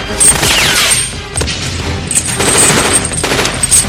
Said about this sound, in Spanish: Estamos bajo fuego pesado, debemos movernos, señor.